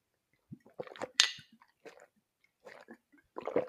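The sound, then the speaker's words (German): Soft sips and swallows from a drink, a few faint, wet mouth sounds spaced irregularly over a quiet background, with no talking. “Ich trinke mal einen Schluck, weil ich ein bisschen auch den Faden verloren habe.”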